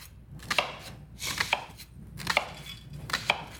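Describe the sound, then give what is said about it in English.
A knife chops an onion on a board to make a bloomin' onion, with sharp crisp cuts landing in a few uneven clusters and short pauses between them. No talking. “And you just cut like this. Oh, and you make this. Okay. So those are all the pieces of the Bloomin' Onion.”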